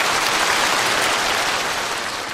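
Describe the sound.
Audience applause, dense and steady, fills the whole stretch as an even wash of many hands clapping, holding at a constant level without distinct voices.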